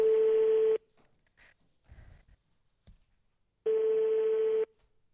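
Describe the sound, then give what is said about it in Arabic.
Telephone busy signal on a number that is engaged: two long, steady, mid-pitched beeps separated by a pause, with faint scattered noises in the gap. “باقي الهاتف مشغول”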